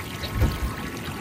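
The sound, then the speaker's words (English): Soft water sloshes and gurgles as a canoe stirs the surface of a lake, a low continuous wash with a gentle swell in the middle. “The morning sun on your face, a canoe stirring the surface of a lake.”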